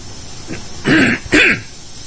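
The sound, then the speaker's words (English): Two harsh throat-clearing bursts, fairly loud, follow a brief faint rasp. A short pause separates them, and there is no speech. “By the time I reach the volume knob, I can't do anything about the throat clearing.”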